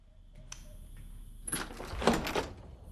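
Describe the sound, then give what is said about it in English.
The front door of a house opens from a hallway: a faint click, then a longer burst of rattling, scraping noise over about a second, moderately loud against a quiet background. “puts the hallway light on, and opens the front door.”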